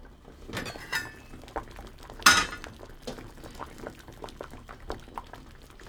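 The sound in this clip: Sweet potatoes boil in a pot of water after about twenty minutes of cooking. The water bubbles softly and steadily, and a few sharp clinks of a utensil against the pot ring out over it.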